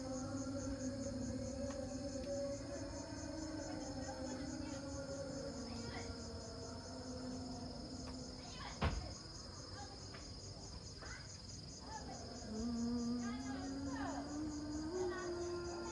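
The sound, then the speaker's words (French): Night crickets chirp in a dense, continuous high-pitched trill that holds steady throughout, while a lower wavering tonal sound glides beneath them and swells toward the end. “ça vient prendre le dessus sur le champ des grillons de nuit”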